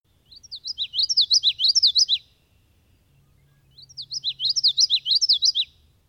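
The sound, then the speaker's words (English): Common yellowthroat warbler song: two bursts of rapid, high-pitched repeated phrases, each lasting about two seconds and separated by a short silence, sung alone over a faint low hum. “That was the sound of the common yellowthroat.”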